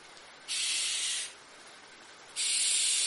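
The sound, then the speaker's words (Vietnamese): Barn owl screeching in two harsh, breathy hissing bursts, each under a second long, separated by a short lull; loud and alone, with no voices. “Tiếng con chim lợn vang lên đột ngột cắt ngang cuộc tranh cãi, khiến cho tất thảy im lặng.”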